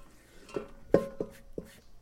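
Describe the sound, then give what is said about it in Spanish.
Salad ingredients go into a cooking pot with four distinct clanks against the metal, the second the loudest, spaced at an uneven rhythm with no talk. “Ahora le vamos a poner a la olla donde está nuestra ensalada.”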